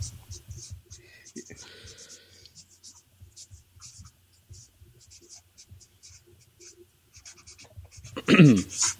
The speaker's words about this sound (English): I'm not writing the whole thing anymore. I'm done.